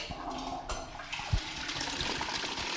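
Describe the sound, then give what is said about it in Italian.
A toilet flush from someone pulling the chain, heard over a telephone line: a steady rushing and gurgling of water that runs for the whole stretch, with a few brief louder surges. “Mi hanno messo in collegamento con qualcuno che sta tirando la catenella del cesso.”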